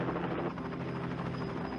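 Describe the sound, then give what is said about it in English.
Helicopter rotor noise, a fast, continuous pulsing thrum with a low buzz, running at an even, fairly quiet level throughout. “You can tell it's a Canadian helicopter.”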